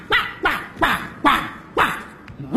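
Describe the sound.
A dog barks repeatedly in a steady rhythm, each short sharp bark dropping in pitch, with several barks following one another at roughly even intervals.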